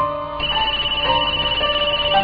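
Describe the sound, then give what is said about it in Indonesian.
A mobile phone rings with a steady electronic ringtone that starts after a brief pause and pulses in a quick, even rhythm of bright tones. “Dan ketika aku lihat nama di layar handphone, di situ tertuliskan Ibu.”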